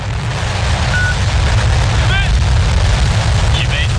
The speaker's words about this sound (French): ce bruit qui a retenti dans le désert de Gobi marque une nouvelle étape dans la course à la Lune. Et vous avez peut-être reconnu le son du décollage d'une fusée, une fusée chinoise en l'occurrence.